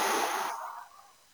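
A deep breath from a morning breathing exercise: one loud, airy rush of breath that gradually fades away to quiet.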